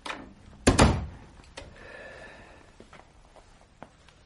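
A theatre dressing room door is opened with a loud thump and rattle, then a softer drawn-out creak and a few small clicks, with no talking.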